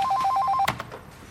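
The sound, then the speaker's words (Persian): A telephone rings with a call from the central prison warden's office: a rapid warbling trill of alternating electronic tones, cut off by a sharp knock and a few soft clunks that fade quickly. “قربان، از دفتر رئیس زندان مرکزی تماس گرفتن، صحبت میکنن.”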